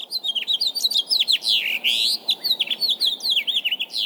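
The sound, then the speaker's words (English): Many small birds chirp and tweet around a nest in quick, high-pitched bursts. The calls overlap into a busy, continuous chorus with no voices. “Yes, this is the nest of Acorn and Petal Twernt, and their delightful flock of birdies. Come, settle on my shoulder and let's listen in.”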